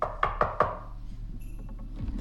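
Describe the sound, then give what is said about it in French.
Three quick, sharp knocks on a hotel door, evenly spaced, followed by a quiet stretch with faint scattered sounds. “Donc on va frapper à la porte pour commencer.”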